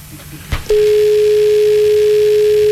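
Telephone dial tone after the caller hangs up: a single steady, mid-pitched tone that starts after a brief knock and holds unbroken and loud to the end.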